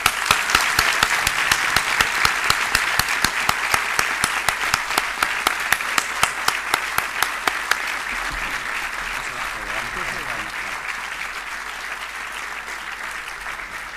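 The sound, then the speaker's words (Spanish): A concert audience applauds at a charity concert: dense, sustained clapping with many overlapping claps that stays steady, then gradually thins and softens toward the end. “nos merecemos a todos un aplauso y más a ustedes.”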